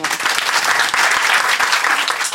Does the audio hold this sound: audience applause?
yes